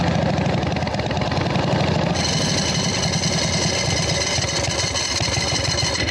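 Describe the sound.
Motorcycle engine idling in first gear as the bike slows to a stop, a steady, unbroken low rumble with a buzzy mechanical drone that holds constant loudness throughout, with no talking.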